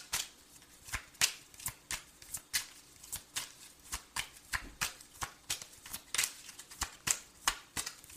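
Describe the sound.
Playing cards being shuffled and drawn: a long run of many crisp, papery snaps and riffles at an uneven, brisk rhythm, fairly faint, with no talk over them.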